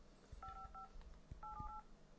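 Faint telephone keypad dialing tones: short dual-tone beeps in two quick groups, separated by a brief pause, over low background noise.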